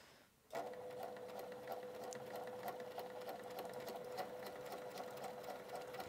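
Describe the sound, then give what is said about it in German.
A sewing machine sews elastic into a sleeve opening, starting after a brief pause and then running as a steady, rapid mechanical whirr with a constant humming tone and fast stitch ticks. “finde meinen Nähfuß wieder, um dann das Gummi da einzuziehen.”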